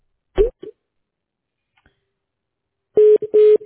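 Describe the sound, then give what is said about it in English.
Telephone keypad dialing tones while calling a customer: a brief click, then two short, steady electronic beeps close together near the end. “Here we go. We're going to dial with customer.”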